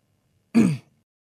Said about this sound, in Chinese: 清了清嗓子